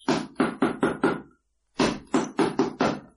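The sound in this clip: Knocking on a door: two sets of five firm, loud knocks in an even rhythm, separated by a short pause, with no voices.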